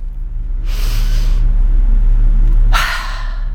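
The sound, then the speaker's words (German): Deep breathing exercise done with an upright spine: two loud, airy breath sounds, a longer one and then a sharper one, over a steady low hum. “Und ich atme 7-mal tief ein und jedoch schnell ausatme. Also so.”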